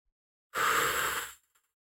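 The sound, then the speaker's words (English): A single slow breath out during a guided relaxation breathing exercise: one steady, breathy rush of air lasting under a second, fairly loud and alone. “We're going to breathe in for like a count of five. So like 1, 2, 3, 4, 5. And then we're going to breathe out.”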